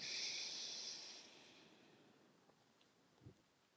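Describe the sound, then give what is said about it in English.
A slow, deep breath through the nose during a calming exercise: a soft airy hiss at the start that fades over about a second into near silence. “And one more time, a deep inhale through your nose.”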